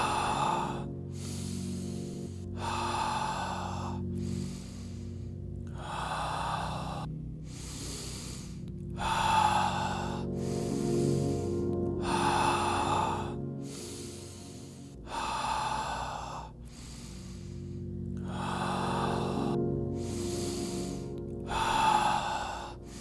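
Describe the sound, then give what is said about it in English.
Steady, repeated breathing in and out, many even breaths in a regular rhythm, soft and airy, over a quiet sustained drone. “Breathe in, breathe out. Breathe in, breathe out. Continue following my breath.”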